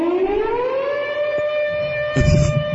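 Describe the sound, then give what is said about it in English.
Air raid siren winds up in pitch over about a second, then holds a loud, steady wailing tone with strong harmonics to the end. “It's an air raid siren.”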